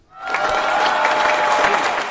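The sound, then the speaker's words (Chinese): Applause from an audience after a child recites a short rhyme about saving water at a school event: dense, steady clapping swells up quickly and stays loud and even throughout, with faint crowd murmur beneath. “掌声响起来，送给殷西贝”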